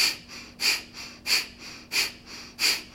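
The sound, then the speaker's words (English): Pumping breathing exercise: forceful, sharp exhales pushed out from below the belly, each followed by a short passive inhale, repeating in a steady, even rhythm of loud breathy puffs. “as you exhale, you squeeze below your belly button to press the air out. The inhale is shorter and it almost takes care of itself. It's a quarter breath. And so this pumping starts to happen as your breath goes in and out.”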